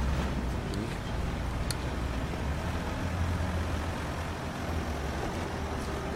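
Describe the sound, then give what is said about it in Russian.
A convoy of military vehicles drives past as a steady, heavy engine rumble and road roar that stays fairly even in loudness throughout, with no clear rise or fade. “Колонна военных машин приближается к позиции, но проезжает мимо.”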